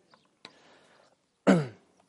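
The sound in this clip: Throat clearing by a preacher during a sermon: a faint short sound comes first, then one loud, harsh rasping clear that fades out over about a quarter second, with quiet on either side.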